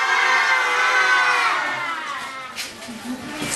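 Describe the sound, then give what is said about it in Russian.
Crowd cheering and shouting hurray on a count of three during filming at a charity project's sixth-anniversary event, a loud sustained burst of massed voices that eases off slightly toward the end. “И, конечно, давайте пошумим на счет три. Ура! Раз, два, три! Ура!”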